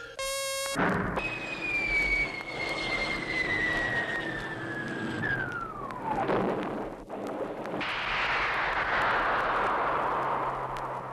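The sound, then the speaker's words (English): Sound effect of a spaceship landing on Earth: a loud, high whistle glides steadily down in pitch over rumbling noise, breaks off briefly, then a broad roar swells up and holds. “Attention, Earth approach orbits. Stand by for Space Scout landing on Earth.”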